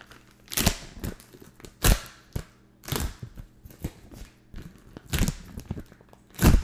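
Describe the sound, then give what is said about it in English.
A resealable plastic package of Kraft Naturals Cracker Cut Sharp Cheddar crinkles and snaps as it is opened and pressed shut, in a string of sharp, irregular bursts separated by quiet gaps. “You hear that? Resealable. So if I take out a square of cheese, I can easily reseal back the package.”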